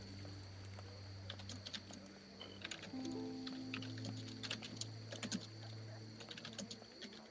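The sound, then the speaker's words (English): Someone types hard on a computer keyboard. Faint bursts of rapid, irregular key clicks, some louder than others, play over a steady low hum. “Somebody bashing away on the keyboard.”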